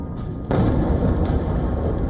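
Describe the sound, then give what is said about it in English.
Explosions from a nighttime Russian missile and drone attack on Kyiv: a loud, deep boom bursts in and rolls into heavy, sustained rumbling, with no voices. “A wave of Russian missiles and drones roared across Ukrainian skies. A series of explosions ring out.”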